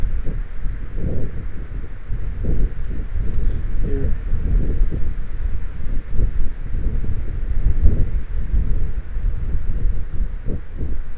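Wind blowing on a microphone outdoors, a steady low rumbling roar with gusty surges throughout and no voices.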